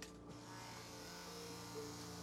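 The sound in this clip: An engine is cranked after repair work but fails to start. A steady mechanical whirring with a faint whine holds at a fairly low level throughout, with no voices.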